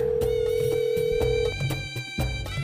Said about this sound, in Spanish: Tenemos ya las líneas abiertas. Y ahí, ahí va la primera llamada.